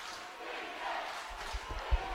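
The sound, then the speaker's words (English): A football stadium crowd on its feet roars as a team takes possession at its own 20-yard line. A broad, steady swell of cheering runs throughout, with a voice talking over it and a few low thumps toward the end. “Crowd on its feet.”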